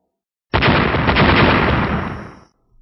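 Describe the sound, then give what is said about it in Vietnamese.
A loud explosion tearing apart a blood-mist island in a fantasy battle: one abrupt, roaring blast that sustains for about two seconds and then fades out. “Từng tiếng nổ lớn không ngừng vang lên khủng khiếp.”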